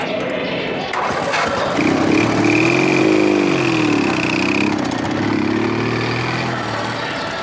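A car engine starts and drives off, a low hum swelling after a couple of seconds, its pitch rising and dipping as it revs before settling into a steady drone.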